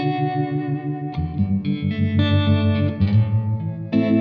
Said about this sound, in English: One of those pedals you can spend hours, I think, messing about with because you've got so many options.